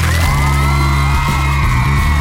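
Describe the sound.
Girls shriek in a high-pitched, excited chorus that is loud and continuous for the whole moment, over a steady low droning tone.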